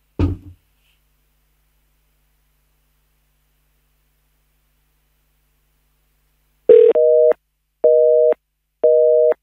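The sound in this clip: A telephone busy signal sounds after a long silence: three loud, steady, even tone bursts in a regular on-off rhythm, the first opening with a sharp click. A brief thud is heard at the very start.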